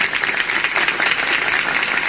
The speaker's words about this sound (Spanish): A ver, ¿cómo dicen esas palmas?